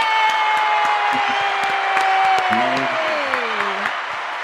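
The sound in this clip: A studio audience applauding and cheering for a guest, a continuous, fairly loud wash of clapping and crowd noise with scattered sharper claps, while a voice speaks over it.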